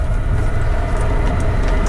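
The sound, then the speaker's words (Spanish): Passing trains produce a loud, steady, heavy rumble with a deep low roar that holds constant throughout. “Ahí se nos cuela ahí los trenes.”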